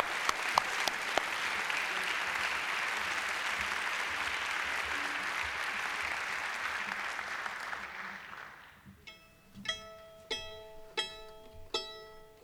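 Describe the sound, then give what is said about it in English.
Audience applause welcoming a fiddler on stage: dense, steady clapping that fades after about nine seconds, followed by several sharp plucked string notes. “So please join me with a great big hand, make welcome fiddler Bobby Taylor with James Summers.”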